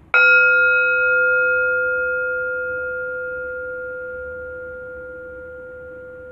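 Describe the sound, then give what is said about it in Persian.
A meditation bell is struck once, and a clear, pure ring sustains and slowly fades over several seconds. “اجازه بدین صدای این زنگ افکار شما رو از شما دور کنه.”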